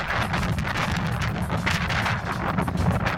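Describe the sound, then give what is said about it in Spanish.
Strong puelche wind blowing over Lake Riñihue amid heavy waves, a constant loud, rough buffeting roar against the microphone with no talk. “el lago con un tremendo oleaje, pero increíble, ¿eh? Puro viento puelche”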